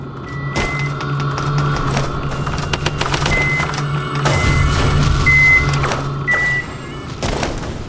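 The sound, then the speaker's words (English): Video game sound effects of an enemy caretaker throwing missiles: short, high electronic blips recur a few times over a steady low hum, with scattered clicks and thuds. “That caretaker is trying to throw missiles, those little sounds you're hearing.”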